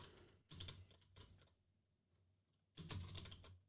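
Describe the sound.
Computer keyboard keys pounded furiously, faint rapid clicking in two dense bursts separated by a short lull.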